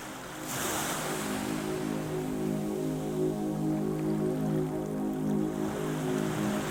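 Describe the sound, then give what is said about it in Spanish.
Ocean waves wash around a fishing boat on calm sea, a soft, continuous surging hiss with a steady low hum beneath it. “esperó mientras escuchaba el vaivén del oleaje”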